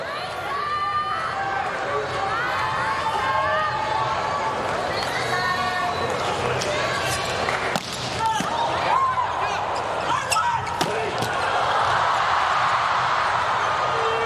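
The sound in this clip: A volleyball serve during a match between Japan and the United States, the ball strikes ringing out over constant crowd noise and chatter, with a commentator talking throughout.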